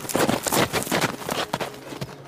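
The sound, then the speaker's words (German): Hooves of a wild horse pound at a fast gallop, many quick, sharp beats in an uneven driving rhythm, fairly loud and heard alone without voices. “Da jagte plötzlich auf einem wilden Ross eine mindestens ebenso wilde Reiterin auf sie zu. Fast sah es aus, als flöge sie durch die Luft, so schnell war sie. Die Hufe ihres Pferdes berührten kaum den Boden.”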